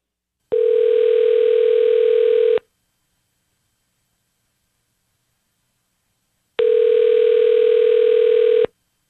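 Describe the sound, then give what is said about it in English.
A telephone line tone plays while a call is being dialed. Two long, steady, mid-pitched tones of about two seconds each are separated by a silent pause of roughly four seconds, with no voices. “All right, be very quiet. We're dialing him up now”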